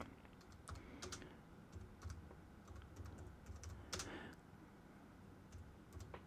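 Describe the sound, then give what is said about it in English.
Typing on a computer keyboard: faint, quick, irregular key clicks tap along steadily with occasional slightly louder strokes and no voices. “Let me just type into the Google machine here real quick.”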